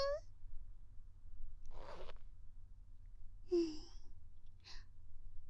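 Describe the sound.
A clothing zipper is pulled open in one quick, rasping stroke lasting under half a second. It is fairly faint, with soft breathy vocal sounds before and after.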